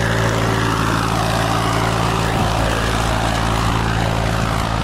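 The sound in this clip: A tractor engine drones as it ploughs a wide green field in preparation for planting cotton. The loud, steady hum holds an even pitch throughout with no talk.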